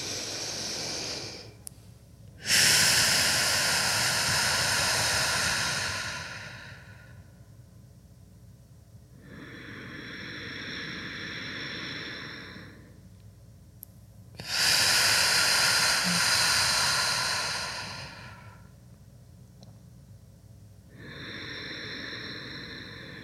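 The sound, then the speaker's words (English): Deep belly breathing in a guided relaxation exercise: two slow cycles, each a long, loud, airy inhale followed after a pause by a softer, hissing exhale. “when you're ready, we'll take three deep breaths in from your belly. Inhale.”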